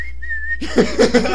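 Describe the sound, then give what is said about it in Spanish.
A person attempting to whistle produces a thin, steady high tone for about half a second, then breaks off into short voiced sounds. “Es que no puedo chiflar. Deje que se me pase.”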